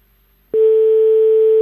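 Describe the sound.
A telephone ringback tone sounds as a call is placed to a hotel: one steady, pure mid-pitched tone starts abruptly after a short near-silence and holds unbroken to the end.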